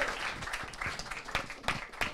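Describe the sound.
Applause from a small group thanking the man who delivered pizzas to a dinner gathering, with irregular, crisp hand claps of moderate loudness and some voices underneath.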